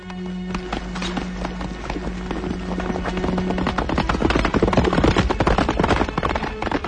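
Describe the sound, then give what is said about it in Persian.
Horse hooves galloping as a rider sets off on horseback: a rapid, driving clatter of beats that grows louder toward the end, with a steady low tone sounding beneath it through the first half. “عبدالله سوار بر اسب به تاخت می رود”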